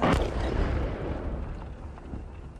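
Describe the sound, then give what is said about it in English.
Hidden Ukrainian artillery in eastern Ukraine fires shells toward separatist-held territory: a heavy boom with a sharp onset, then a long, low, rumbling decay. “On the drive home, sudden and terrifying blasts. Hidden Ukrainian artillery fires shells towards separatist-held territory.”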